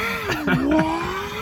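A Ford Raptor pickup truck's engine revs hard at full throttle from a green light. The engine note dips, then climbs again in a short, loud, throaty surge.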